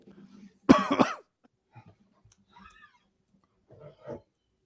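A person with a stubborn cough that has lasted two weeks gives one loud, harsh cough burst, followed by near silence and a few faint, brief throat sounds.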